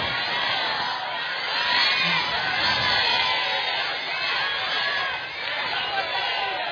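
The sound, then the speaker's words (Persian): A large crowd loudly recites salawat, the blessing on Prophet Muhammad, in unison, a continuous dense wash of many voices that stays loud and steady throughout. “یک صلوات بلند نثار همه شهدای عزیز شهر زاویه بکنیم. اللهم صل علی محمد.”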